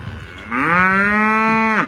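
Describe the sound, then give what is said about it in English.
A cow moos once in a single long, loud, steady low bellow with rich harmonics, heard on its own with no talk. “Random cow.”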